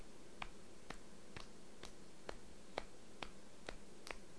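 Soft, quiet claps from a toddler's little hands, nine light taps in a steady, even rhythm, faint over a low hiss.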